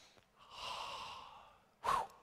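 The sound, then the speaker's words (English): A deep breath: a long, soft, airy inhalation, then a brief, louder, forceful puff of breath. “So take a deep breath in and let it out.”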